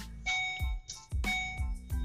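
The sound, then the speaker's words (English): Electronic beeping from a device: a few bright, ringing tonal beeps mixed with low thumps, repeating in an uneven rhythm at a fairly faint level. “Sorry about the beeping.”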